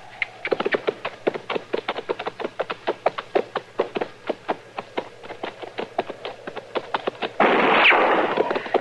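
Rapid gunfire in a Western drama crackles around a cavalry outfit's campfire, with many sharp, irregular shots in quick succession, then a rougher burst of noise near the end.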